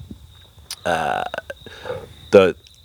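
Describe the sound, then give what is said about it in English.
A deep, drawn-out human burp: a loud, low buzzing belch of about half a second, surrounded by faint murmuring voices and a few other short vocal bursts. “I've got a big burp coming, sorry.”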